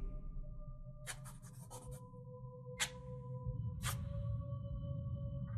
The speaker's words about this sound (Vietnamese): Tay cổ Mị cứ như vậy đưa qua đưa lại màu gạch trên hiên nhà, tạo thành những tiếng loẹt xoẹt.